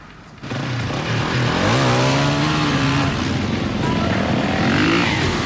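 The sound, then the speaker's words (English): Motorbike engines revving as riders fan out on a search: a loud, continuous engine roar that starts abruptly, climbs in pitch early on and then holds steady. “the men fan out on their motorbikes looking for him”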